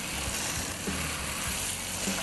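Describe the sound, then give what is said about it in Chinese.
Dried tofu stir-frying in oil gives a steady, dense sizzle that holds evenly throughout, with a few faint low knocks beneath it and no talking. “豆干也是要炒到恰恰。 嗯，所以是为了恰恰才来炒豆干的。”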